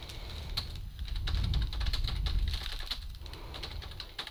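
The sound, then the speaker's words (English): Fingers type on a computer keyboard in a quick, irregular run of light clicks, fairly faint and alone without voices. “I typed Goliath grouper.”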